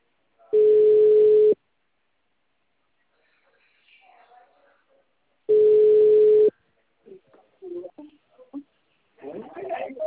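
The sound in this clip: Telephone tone sounding while a call is placed: two steady mid-pitched beeps about a second long, roughly four seconds apart, with faint scattered sounds and brief voice-like noises following.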